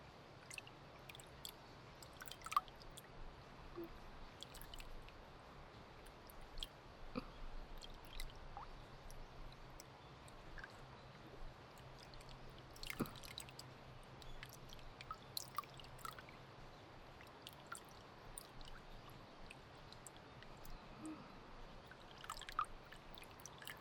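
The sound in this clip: Faint wet splashing and squishing as water rinses serum off a hand after a massage: soft, steady trickling texture dotted with many small drips and light clicks, with no talking.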